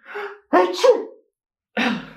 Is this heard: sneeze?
yes